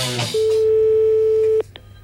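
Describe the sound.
A steady telephone line tone while a call is being placed, a single pure mid-pitched note held evenly for over a second, then cut off, followed by a couple of short clicks and faint tone blips.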